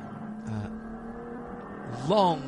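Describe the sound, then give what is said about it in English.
Race cars accelerating back up to speed uphill after a green flag, engines droning under a commentator's voice, with one engine note swelling louder and sweeping up, then down, near the end. “Green flag on the exit. And they get immediately back up to speed to the top of the hill.”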